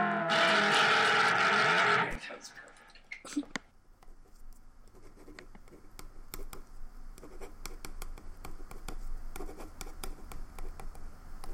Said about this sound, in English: I'm writing Independent Spirit Award for Best First Feature.